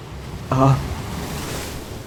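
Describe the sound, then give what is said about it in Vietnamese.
Sea waves slap against a rocking boat with a steady, rushing wash of water and wind. One louder surge comes early on. “Sóng bắt đầu đánh con tàu lắc lư.”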